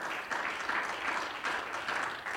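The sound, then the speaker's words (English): Church audience clapping during a service, a dense and steady round of applause that holds at an even level throughout, with no voices standing out. “You're not clapping for me, you're clapping for Jesus.”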